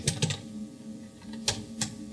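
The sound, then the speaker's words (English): Typing on a computer keyboard: several sharp, irregular key clicks in short clusters with quiet gaps, over a faint steady low hum. “I don't even have a bookmark. Yeah, I have to type it in.”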